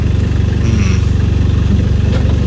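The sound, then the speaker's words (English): A loud vehicle engine runs with a continuous, rhythmic low throb, steady and heavy throughout without voices. “It is a very loud vehicle that we're listening to.”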